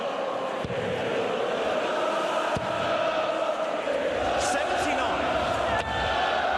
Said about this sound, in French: Et le public debout, le public déguisé, c'est ça l'ambiance des fléchettes. Aucun doute, on est bien en Angleterre et on est bien dans ce temple de fléchettes qui est le Gardens de Blackpool.